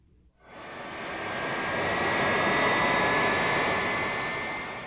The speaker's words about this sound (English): This is a plane. It's a Boeing.